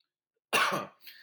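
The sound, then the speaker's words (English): A single cough into the elbow: a sudden, harsh burst of breathy noise that tails off, followed by a brief, weaker exhale after a short gap. “I coughed. Oh, it's okay. I coughed into my elbow.”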